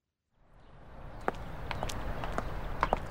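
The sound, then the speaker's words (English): Footsteps of a girl walking to school, steady light steps fading in over a rising background hiss, with a few sharper taps toward the end. “Kirsty is walking to school.”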